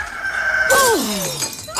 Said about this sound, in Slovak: keď kohút zakikiríka tretí raz